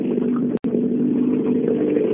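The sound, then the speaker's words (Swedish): A Volvo rally car drives through a corner with a steady, low, droning engine rumble that holds an even pitch, broken by a brief gap near the start. “Det där är fränt att kolla på en Volvo i den svängen.”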